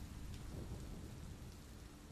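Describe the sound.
Rain falling outside with thunder forms a soft, steady wash of dense noise, with low rumbling underneath and no distinct cracks, holding at an even, quiet level throughout.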